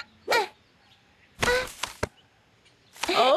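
A ball strikes and topples a set of bottles in a children's bottle-knocking game. Three sharp, clattering bursts sound, with the middle one longer and rattling.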